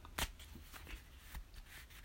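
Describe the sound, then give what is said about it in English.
Picture cards being shuffled and drawn, heard as a few soft, papery flicks and rustles with one sharper snap near the start. The cards are faint and brief, and no one speaks. “we'll see what card we pull for this week. And they are picture, one card, one picture per card”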